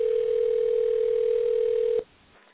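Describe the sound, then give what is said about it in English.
A steady telephone dial tone holds as one flat, unbroken hum for about two seconds, then cuts off with a click and leaves near silence. “And I'm dialing her number right now to bring her on.”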